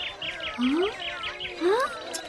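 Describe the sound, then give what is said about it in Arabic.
A small bird chirps in quick bursts of high tweets, including two clear upward-sweeping calls, with a constant layer of bird twittering underneath. “ياه، كم أنت جميل أيها العصفور. مرحبا بك، أتعرفني؟”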